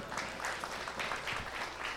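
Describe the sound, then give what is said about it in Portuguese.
Faint audience applause for a speaker during a religious talk: a dense, steady patter of clapping that holds evenly through the short moment. “Isso aí, aplaudam o Andrezão”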